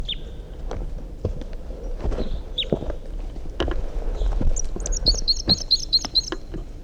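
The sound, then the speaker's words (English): Wild bird song: a quick run of repeated high chirps near the end, following a few scattered earlier calls, over irregular low knocks and thumps. “In flight. Wild bird song phrase. Stop. No, that's a wild bird still.”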